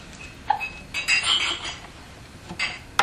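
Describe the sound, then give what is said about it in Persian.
Board game pieces get knocked over and fall, giving a few sharp clicks and small clinking clatters, with a short rattling run in the middle before a final tap. “اینو میرسی اینقدر محکم زدی که بقیه مهره ها هم ریختن”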